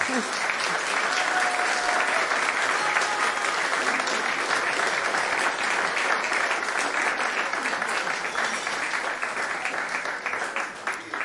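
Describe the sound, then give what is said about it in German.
Applause from a concert audience after a trombone concerto performance, a dense, steady wash of many hands clapping at full strength for about eleven seconds, thinning slightly toward the end. “Applaus”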